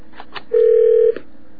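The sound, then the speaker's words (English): A telephone keypad beeps as a number is dialed: a few faint short blips lead into one loud, steady mid-pitched tone of about half a second, followed by another brief blip. “And we don't want people hearing his number, so I'm trying to talk over it. Let's see if I can dial and talk at the same time.”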